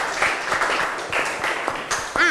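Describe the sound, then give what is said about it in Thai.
Classmates applaud, clapping hands in a steady crackle of many overlapping claps at moderate loudness, with a few voices and a brief rising call near the end. “ซึ่งถ้าสอดคล้องกันปรบมือให้เพื่อนก่อนนะคะ”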